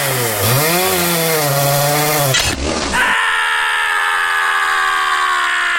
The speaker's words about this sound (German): Weißt du wirklich, wie man mit so einer Kettensäge umgeht? Wir könnten den Tannenbaum doch sonst auch einfach im Baumarkt kaufen. Ach, Kleines. Echte Männer sägen so ein Bäumchen selbst.